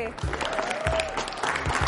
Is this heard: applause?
yes